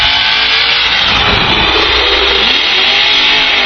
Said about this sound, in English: Larry revs it up. Here we go.